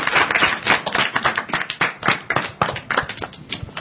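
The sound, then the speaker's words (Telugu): Children clapping their hands in applause after a quiz round: many quick, overlapping claps form a dense, steady patter that lasts throughout. “చప్పట్లు కొట్టండి చక్కగా.”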